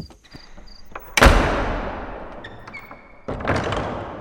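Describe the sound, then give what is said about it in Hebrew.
Heavy door slams, two sharp thuds a couple of seconds apart, each followed by a long, slowly fading rumble. Faint high chirping tones sound before the first slam. “מי סגר את הדלת? מה זה? גם בצד השני סגרו את הדלת.”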